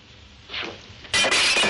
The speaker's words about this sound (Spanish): le quita la copa de la mano y la tira.